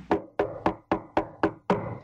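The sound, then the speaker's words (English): Knocking on a door: seven firm, hollow knocks in a steady, even rhythm, each sharp at the start and quickly fading, with nothing else heard. “And I decided I'd knock on her door one day.”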